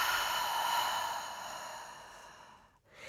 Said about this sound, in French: Et expirez bien par la bouche.